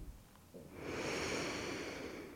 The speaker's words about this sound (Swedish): Så ta ett djupt andetag in och andas in genom näsan och andas ut